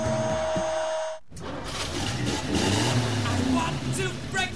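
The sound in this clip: A car engine revs in a throaty, rising roar that holds for several seconds. Before it, a short tonal musical burst cuts off into a moment of silence.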